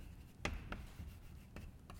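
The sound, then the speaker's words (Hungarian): Faint writing on a board during a physics lecture, heard as a few short, dry tapping strokes against a quiet hiss. No one talks. “Na most ide írom azt, ahogy eddig ismertük.”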